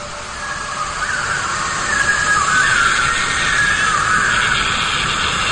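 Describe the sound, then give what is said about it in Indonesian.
Shrill squealing of small monkeys in their cages at night, thin, wavering high cries rising and falling over a constant hissing background throughout. “Dan sekarang aku harus melewati kandang mereka di malam hari pula. Berisik banget sih ini monyet-monyet.”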